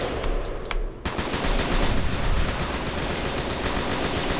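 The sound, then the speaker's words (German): Rapid-fire weapon shooting in a video game: a few separate shots, then a loud, dense, unbroken burst of automatic fire that continues to the end. “Mal schauen, was diese neue Waffe kommt. Das ist ein Schnellfeuerwaffen.”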